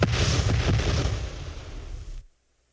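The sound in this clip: A rifle volley fired by a firing squad: one loud blast at the very start rolls on as a heavy, rumbling roar for about two seconds, then cuts off abruptly into silence.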